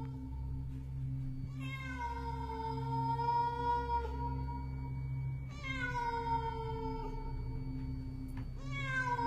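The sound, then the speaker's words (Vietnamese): A cat meows from afar at night, two long, drawn-out, wailing meows with a slight downward bend in pitch and the start of a third, over a low, steady background hum. “Từ xa, tiếng của con mèo vẫn còn kêu vang vọng như khiêu khích.”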